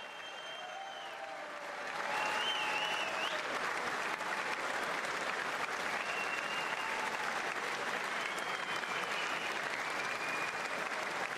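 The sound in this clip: Applause greets President Trump as he enters the chamber, with Republicans giving him a hero's welcome. Steady, dense clapping swells after a couple of seconds and continues at full strength.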